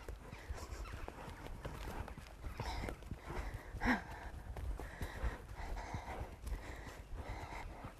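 Hooves clip-clop as a mare walks out on a hack, an irregular run of soft hoof falls with one louder thud near the middle.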